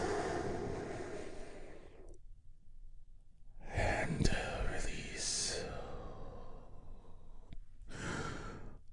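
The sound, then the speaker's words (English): Deep breathing during a guided group meditation: a long, airy breath in and out, then a pause and a shorter breath at the end. The breaths are soft, broad and hissing, with no words spoken. “And we begin our healing moment of Zen together by taking a big, deep healing breath all together. Here we go.”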